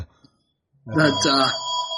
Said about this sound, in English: I'm sorry about the phone ringing.